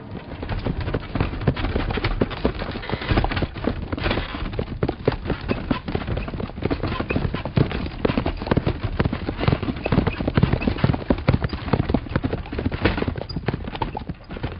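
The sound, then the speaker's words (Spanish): Horses' hooves clip-clop steadily while travelling at a good pace, a dense, continuous run of rhythmic hoof strikes holding an even loudness throughout. “Hemos viajado todo el día a buena velocidad. Los caballos parecen saber que los estamos tratando con bondad, ya que demuestran la voluntad de avanzar al mejor paso.”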